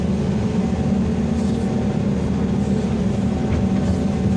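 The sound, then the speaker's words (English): An engine-driven pump drones steadily while pumping diesel fuel, a loud, continuous low rumble with a constant hum and no pauses or changes in level throughout, with no voices. “So we started up, starts pumping diesel.”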